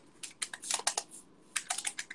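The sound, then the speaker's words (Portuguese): Computer keyboard keys clatter as a search query is typed, quick light clicks arriving in two separate bursts with a short pause between them and no voices. “Mulher com dor região lombar. Vou dar enter lá no Google.”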